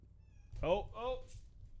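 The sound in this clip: A crying female cat gives two meows close together. The first is louder and higher-pitched, and the second is a softer, drawn-out wail, with quiet between them.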